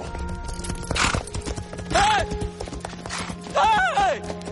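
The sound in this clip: Horse hooves clip-clopping along a path as a single horse carrying two riders approaches, a loose run of uneven knocking steps heard under other sounds.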